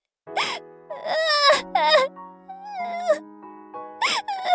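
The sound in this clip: A person crying in several loud, wailing sobs with wavering, breaking pitch, separated by short gasping breaths, heard alone without any talk.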